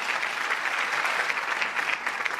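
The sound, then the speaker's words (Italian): Applause from an audience: a steady, dense patter of many hands clapping at even loudness throughout, with no voices standing out. “ci vuole un applauso al grande Maurizio Pagnini”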